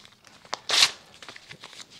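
Paper sheets listing genders being ripped apart: one quick, loud tearing rip lasting a fraction of a second, with faint crinkles and small clicks of handled paper before and after.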